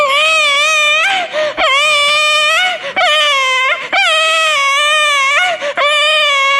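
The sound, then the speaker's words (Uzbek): An infant cries loudly and without a break, in a string of high, wavering wails with a few brief catches for breath between them. “Deb turgan ekan, chaqaloq yig'lab qopti.”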